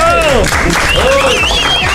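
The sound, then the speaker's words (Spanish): Brief burst of applause for a quiz winner on a radio show, with rising and falling whistle-like tones sweeping over the clapping. “Aplauso, ganador, hombre.”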